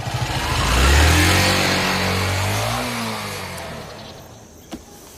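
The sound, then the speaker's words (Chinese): A motorcycle rides past, its engine drone swelling to a loud peak and then slowly fading away. “你说魏宝库家有的是车，这小子还骑台摩托呢？”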